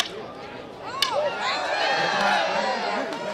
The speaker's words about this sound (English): The sweet smell of cotton candy sticks to humid air, as does the persistent, percussive sound of wood smacking cement.